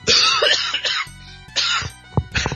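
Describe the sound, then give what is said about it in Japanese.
Harsh coughing and throat clearing come from someone genuinely choking, a fit of several rough, loud bursts with short quiet gaps and strained breaths between them. “芝居しようと思ったらマジでむせた。”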